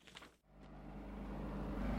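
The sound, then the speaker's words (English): Low rumble of dump trucks loaded with sand and construction machinery in Mendenhall Valley, faint at first and then swelling steadily louder into a deep, continuous growl by the end. “The low growl of machinery resounds through Mendenhall Valley. Dump trucks filled with sand rumble down Kilowich Drive and into backyards.”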